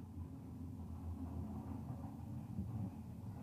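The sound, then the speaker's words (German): A wheelie trash bin is rolled in outside, its wheels making a faint, steady low rumble that lasts the whole time with no talk. “Achtung, jetzt können wir live zuhören, wie die Mülltonne reingefahren wird.”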